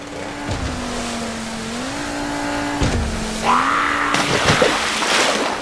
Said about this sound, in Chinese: 严福瑞听到了引擎拉绳的启动声